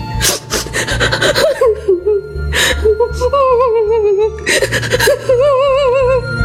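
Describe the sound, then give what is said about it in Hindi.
A woman cries loudly in wavering, high-pitched sobbing wails that come in a few bursts, broken by sharp gasping breaths and shaky whimpers. “मुस्कान की माँ कमरे में रोती हुई आती है।”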